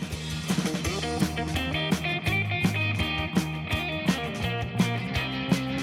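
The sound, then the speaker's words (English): Groovy instrumental music played during a radio pledge drive, with a steady rhythmic beat, a bouncing bass line and bright repeating chords at an even volume. “I think that's the sound of $20 a month right there. That is the sound of $20 a month being tripled right now because there's the groovy music.”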